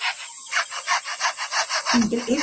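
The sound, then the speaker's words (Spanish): A lyrebird mimics a handsaw with a long run of rhythmic, bright, rasping strokes, steady and evenly paced like a blade cutting back and forth. A voice starts up near the end. “esto es el ave lira. Sonidos de instrumento electrónico, mirá. También puede ser el sonido de un serrucho, por ejemplo, el ruido de un serrucho.”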